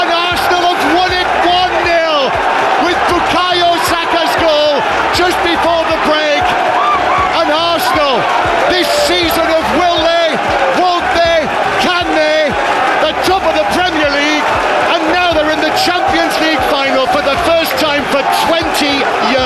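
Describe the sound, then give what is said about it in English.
A football crowd roars in delirium at the final whistle of a Champions League semi-final in North London, a loud, continuous wall of cheering, shrieks and whoops with excited commentary talking over it throughout. “The delirium in North London at the final whistle as Arsenal beat Atletico Madrid 1-0 at”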